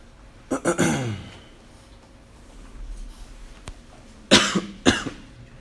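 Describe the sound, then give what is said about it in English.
Coughing: a quick cluster of harsh coughs near the start, a quiet gap, then two more separate coughs, with faint background noise between. “No, it was a cough. Yeah, it was just a cough.”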